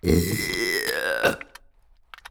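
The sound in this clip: A burp close to the ear: one long, loud, throaty belch drawn out for over a second, then fading into a few faint small sounds.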